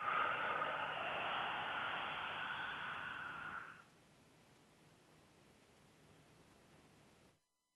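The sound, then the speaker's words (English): A breath is let out gently through the mouth during a guided breathing exercise. It is a soft, airy whoosh lasting about four seconds, then it drops to a faint hiss, with no talk. “And then very gently letting the breath out through the mouth.”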